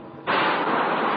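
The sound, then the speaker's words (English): Decompression on the US Navy submarine Sea Lion as the top bridge hatch closes before a dive: a sudden loud rushing hiss that starts abruptly and holds steady. “That sound you just heard was the decompression.”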